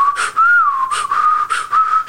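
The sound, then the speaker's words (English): A man imitates someone's out-of-tune whistling. The tune wavers and slides in pitch, with breathy puffs between notes. It is fairly loud and there is no talk over it. “Mark used to whistle out of tune a lot. He'd go,”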